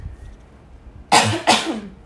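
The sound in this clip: Two harsh, dry coughs from a parched throat after long talking, following each other closely, both loud and breathy with a brief gap between them after a quiet lead-in.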